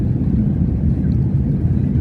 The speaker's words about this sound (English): So let's see what happens when I push this button right here. And they're rolling down the runway.